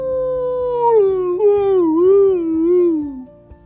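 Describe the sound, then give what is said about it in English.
A sleepy dog's attempted bark turning into a yawn: one long, drawn-out tonal whine, like a soft howl, that slides down in pitch and wavers before trailing off, heard alone. “Lucas was trying to bark, but then it turned into a yawn because Lucas was very sleepy.”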